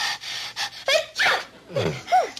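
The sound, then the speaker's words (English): A person with a stuffy cold sneezing: a few breathy, gasping catches of breath build up, then a final sneeze with a sharply falling pitch. “you haven't been sneezing as much. Now I started up again.”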